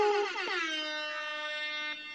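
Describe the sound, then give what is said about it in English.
A single long air horn blast bends slightly downward in pitch at the start, then holds a loud, steady tone for about two seconds, with no voices over it. “The air horn just explains how I feel in the best way possible.”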